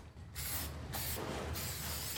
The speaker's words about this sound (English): Below ground, miners are spraying slogans on the walls in red paint.